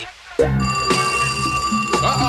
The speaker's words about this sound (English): Uh-oh, it's on now, mate. They calling, mate. Say, man, get the phone.